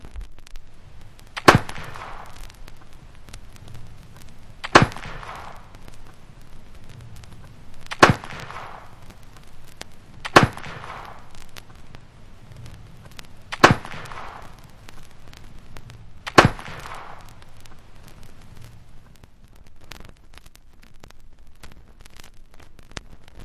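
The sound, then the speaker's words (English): Six sharp gunshot cracks from a .50 caliber Kentucky rifle loaded with 50 grains of black powder, evenly spaced a few seconds apart, each a loud instant bang with a short decaying tail over faint background noise. “Here again is the sound of the Kentucky rifle, 50 caliber, this time fired with 50 grains of black powder.”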